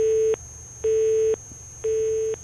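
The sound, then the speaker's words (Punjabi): A telephone tone sounds after a call is cut off: three steady, mid-pitched beeps of equal length separated by even pauses, alone over faint line hiss. “ਲਓ ਜੀ ਪਹਿਲੀ ਕਾਲ ਹੋ ਗਈ ਹੈ disconnect.”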